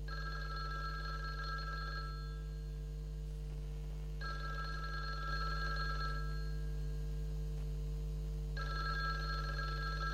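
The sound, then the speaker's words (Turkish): A telephone rings in three long trilling bursts separated by pauses of about two seconds, over a steady low hum, with no voices. “Şöyle telefonu alasanız da! A telefon kıyırıp seslenip yarlı da!”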